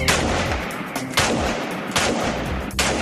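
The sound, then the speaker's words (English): Rifle gunshots ring out as a few sharp, loud cracks spaced about a second apart, each trailing into a short rumbling decay. “Good shot. Good grouping.”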